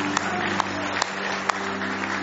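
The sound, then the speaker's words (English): Congregation clapping in praise during a church service, a sustained wash of many hands with a few sharper individual claps standing out now and then, with no talk on top. “Give Him another hand clap of praise if you love Him.”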